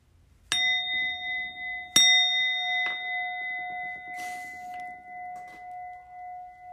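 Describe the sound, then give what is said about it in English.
A small hand bell rings with two sharp, bright strikes, each leaving a sustained metallic tone that lingers and slowly fades, followed by a few softer, fainter jingles as the ringing carries on. “I'm going to ring my little bell, and then I will instruct you.”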